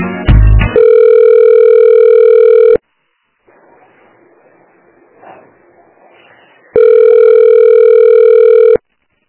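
Telephone ringback tone while calling a family member: a brief burst of mixed tones at the start, then two loud, steady buzzing rings of about two seconds each, split by a quiet stretch of faint line noise.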